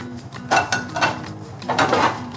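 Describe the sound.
A cooking pan handled on the stovetop before frying tortillas, giving a few hollow metallic clanks and knocks at uneven intervals over a steady low background hum.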